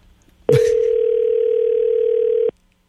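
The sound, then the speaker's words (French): Telephone dial tone while a call is being placed: a brief click, then one loud, steady, low-pitched hum lasting about two seconds before it cuts off abruptly. “On va l'appeler, là.”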